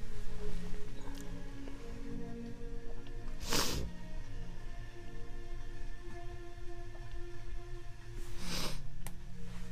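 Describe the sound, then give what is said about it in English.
Two brief, sharp sneezes several seconds apart, faint over a low steady hum. “I have to sneeze.”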